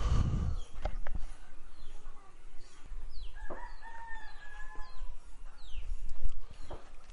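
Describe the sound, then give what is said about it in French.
A rooster crows at dawn in a small village in early March. One drawn-out crow stands out midway over a steady noisy background with a few short, high chirps. “Ça c'est Paul le coq, et aussi Émile et Victor, ils ont fait pas mal de bruit ce matin.”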